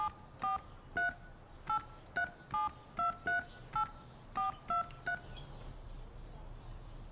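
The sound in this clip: Telephone keypad tones as numbers are entered on an automated phone line, with many short, evenly spaced beeps in a quick, regular rhythm that then stop, leaving faint background noise.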